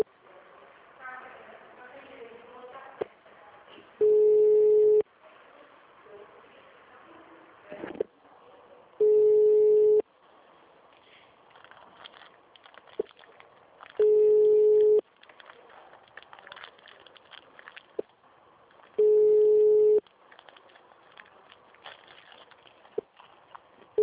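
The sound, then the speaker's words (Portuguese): Ringback tone of an unanswered phone call: four long, steady tones about a second each, spaced evenly roughly five seconds apart, over background noise and voices. “Porque eu tô ligando e ninguém atende.”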